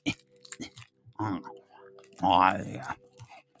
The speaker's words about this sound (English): I'm going to eat a teeny tiny Twix at 3:53 in the morning because I am a professional. I also am lacking dexterity, so I'm struggling with opening this.